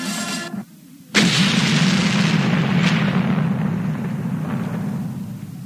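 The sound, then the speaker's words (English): A sudden, loud explosion bursts in after a brief quiet gap. It settles into a dense, sustained roaring rumble that slowly eases off over several seconds. “What was that? It sounded like something exploded.”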